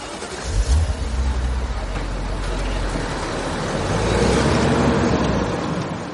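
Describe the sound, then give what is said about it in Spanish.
A car pulls away and drives off down a street, its engine a steady low rumble that swells midway and then eases slightly, with no talking. “Cruza la calle y se monta en el coche marchándose de la zona.”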